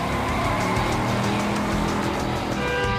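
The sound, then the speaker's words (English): A convertible car speeds away, its engine roaring loud and steady for the whole stretch with a dense, unbroken rush of noise. “He speeds away.”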